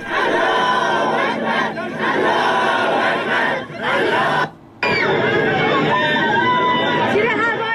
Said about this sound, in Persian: به صدای تظاهرات امروز گوش کردید